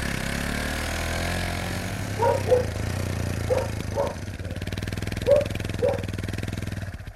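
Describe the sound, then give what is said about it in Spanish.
A motorcycle engine running as the rider sets off: a steady, low throbbing hum with a pulsing beat, plus a few short mid-pitched sounds over it. “¡En moto! Pero vayan con cuidado. Despacito voy a ir.”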